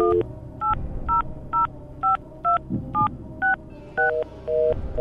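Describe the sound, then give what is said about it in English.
Eleven telephone keypad touch-tones dial a toll-free vanity number, each a short, clear electronic beep of differing pitch, pressed in a quick, fairly even rhythm over a low background murmur. “That was you. You're the one dialing.”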